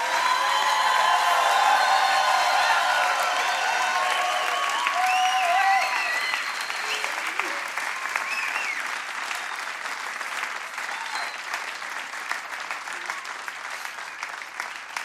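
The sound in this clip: Loud audience applause welcoming new pastors, with cheering voices in the first few seconds. The clapping stays dense and steady, then gradually thins and softens over about fifteen seconds.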